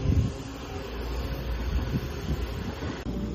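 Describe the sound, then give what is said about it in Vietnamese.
Light autumn wind rumbles low and steady outdoors at a site where a foundation is being dug for a temple's main hall, with a gust near the start and a brief dip toward the end. No voices. “Bây giờ đang là mùa thu cho nên gió nhẹ nhẹ đây.”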